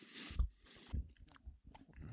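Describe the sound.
Chewing a Jogurette chocolate bar during the third round of an eating contest: faint, soft crunching bites and mouth sounds come in an irregular series of several chews, with no talking.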